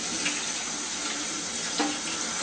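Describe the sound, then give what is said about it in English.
Legumes such as beans or chickpeas are rinsed under a running tap, a steady unbroken rush of water splashing continuously with no talk. “And then it's best if you actually rinse these a bit, and this will get rid of the indigestible proteins that can sometimes cause gas in your intestine. So we'll just rinse those quite a bit.”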